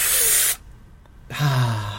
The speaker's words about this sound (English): Exhale. There. Deep breaths.